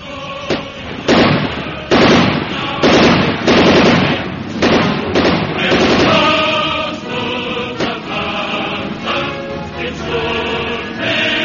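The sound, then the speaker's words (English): Heavy gunfire in a wartime shootout with an armed man, set in 1943: loud, dense bursts of shots and blasts that run for several seconds, thickest early on and thinning toward the end. “He's firing. Let him have it.”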